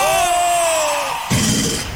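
A man gives a loud shout, a sustained voiced yell whose pitch sinks slowly over about a second. It is cut off by a sudden burst of broad, noisy sound.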